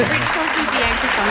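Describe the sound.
Studio applause greets a guest, a dense steady patter of clapping hands that carries on throughout while people talk over it.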